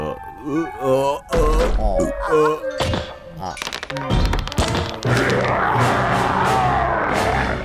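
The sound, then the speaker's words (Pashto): Heavy thuds and a crash as a big table is knocked over, set among loud shouting voices and crowd noise, with a few sharp impacts standing out from the commotion. “میز نسکوره شو او دوی درې واړو منډه کړه تر څو وتښتي.”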